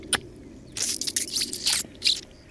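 Wet slurping as blood is sucked from the neck of a cooked bird, one short suck followed by a run of several louder, drawn-out slurps.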